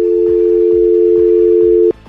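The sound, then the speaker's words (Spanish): A loud, steady telephone tone sounds after the caller has hung up, holding one unwavering pitch before cutting off abruptly near the end. “Ya colgó. Ya no te va a contestar.”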